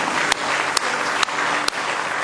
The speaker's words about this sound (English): Oh, let's give him a real good hand clap of praise tonight.